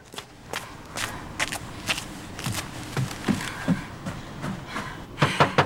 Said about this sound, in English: She runs round to the back of the house and up onto the rear porch.